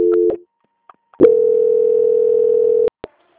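Telephone tone during a call transfer to a bank's quality-control line: a brief tone, a gap with faint clicks, then one long steady mid-pitched tone of under two seconds that cuts off sharply, followed by a couple of clicks.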